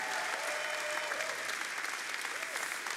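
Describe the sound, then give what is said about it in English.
Church audience applauding and standing to welcome a pastor, a dense, steady wash of loud clapping without pauses. “would you stand to your feet and give a warm, substance welcome to Pastor Herbert”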